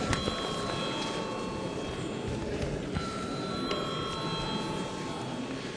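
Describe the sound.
A bell rings in the Latvian parliament chamber to call a vote, giving a faint, continuous ringing tone that holds steady under low background noise.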